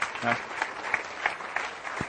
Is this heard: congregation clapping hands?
yes